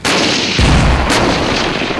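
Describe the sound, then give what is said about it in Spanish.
Heavy artillery fire from a tank army firing reconnaissance shots at a target: a couple of deep, booming blasts over a dense, sustained roar of gunfire, loud throughout. “efectúen disparos de reconocimiento sobre el objetivo de Charlie”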